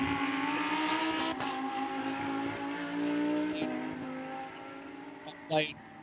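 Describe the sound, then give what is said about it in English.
A Lamborghini Super Trofeo race car drives the downhill section of a racetrack. Its engine holds a steady, high, buzzing drone whose pitch shifts as it moves, with a short sharp chirp near the end. “Great run through the downhill section. This is where Madison Snow really seems to shine. Some energy pushing that car and trying to keep it from turning.”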